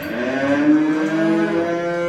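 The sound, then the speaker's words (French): Charolais cow mooing: one long, steady, low lowing call that holds its tone and loudness throughout, heard alone. “C'est une vache qui est très représentative de la race. Dans sa tête déjà, elle a vraiment la tête typique des vaches charolaises.”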